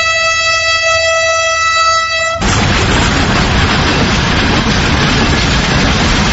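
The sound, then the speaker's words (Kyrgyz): A Bishkek–Moscow train sounds its horn as it departs: a loud, steady, harmonic blast lasting about two seconds, then an abrupt cut to a dense, constant rushing roar. “Сүйлөшүбүз бүтөлөктө Бишкек Москва багытында поезд орно козголуп, сапарын улантты.”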